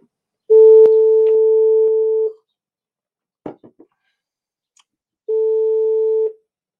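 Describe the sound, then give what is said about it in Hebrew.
A telephone busy signal sounds while a call is placed to the police: two long, steady mid-pitched tones separated by a gap, with a few brief clicks between them. “אני מתקשר שוב למשטרה.”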